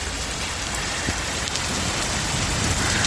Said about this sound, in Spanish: escucha, así jarreaba ayer en Guadalajara.